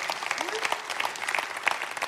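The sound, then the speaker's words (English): An audience applauds to welcome everyone at a Kingsgate gathering that spans several campuses. The clapping is steady and dense, with many overlapping claps and no pause, throughout. “Let's put our hands together and welcome everybody.”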